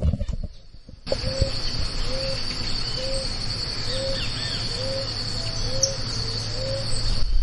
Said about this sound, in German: ihr kriegt den Vibe von Brasilien und den brasilianischen Wäldern hier einmal noch schön auf Tonspur mit.